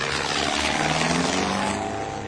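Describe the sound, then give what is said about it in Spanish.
An American airplane flies over the Japanese city of Hiroshima, a loud, steady engine drone with a rough, propeller-like hum that holds level throughout, with no voices. “suena la alarma aérea y un avión norteamericano sobrevuela la ciudad japonesa de Hiroshima”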